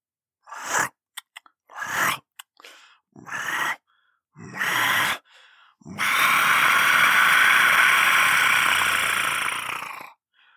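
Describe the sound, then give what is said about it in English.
A human voice imitates a velociraptor: several short snorting, hissing bursts, then a long, loud, harsh shriek held for about four seconds. “here's my velociraptor for you”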